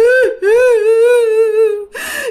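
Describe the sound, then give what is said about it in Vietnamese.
A voice imitates a ghost wailing and sobbing: a short whimper, then a long, wavering, mournful wail held for over a second, breaking off into a brief choked sob. “Thì nó hát khoảng chừng thêm 1 phút sau nữa cái nó ngừng nó không hát nữa, bắt đầu nó khóc các bạn, nó khóc thảm thiết.”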